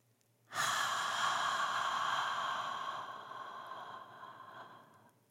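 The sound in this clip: A single long, deep breath rises abruptly out of near silence and holds steady for several seconds before slowly tapering off. It is heard alone, with a soft, airy, hissing quality.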